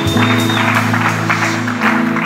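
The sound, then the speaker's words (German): Audience applause during a church service, with a loud, steady wash of clapping over sustained music chords. “Komm, lass uns Gott mal einen Applaus geben im Chat oder hier in der Zirkusfabrik.”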